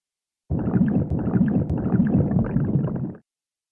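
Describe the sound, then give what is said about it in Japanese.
Loud, continuous gurgling stomach rumble from a strong laxative, a churning low bubbling that runs for almost three seconds on its own, then stops abruptly. “お腹の緩む盛大な音が。”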